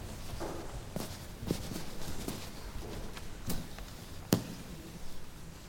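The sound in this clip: Soft footsteps of people walking around a church during an all-age baptism service, with irregular, muffled steps and a few sharper treads over a steady background hum.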